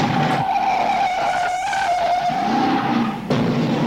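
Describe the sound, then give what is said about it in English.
Tires skid and squeal on a Ford GT40 or 428 Cobra Jet race car, a loud sustained tone with engine roar beneath it and a brief dip near the end. “you're watching now, that is a GT40 or a 428 Cobra Jet.”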